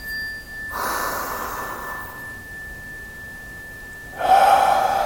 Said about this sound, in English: So here we go. We'll take a big inhale.